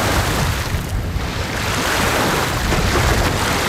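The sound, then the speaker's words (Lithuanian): Waves of the Curonian Lagoon break on the shore at Pervalka. The wash of water is loud and continuous and mixes with rushing wind noise, with no voices. “Čia jau girdite, kaip į krantą daužosi Kuršių Marios pervalkoje.”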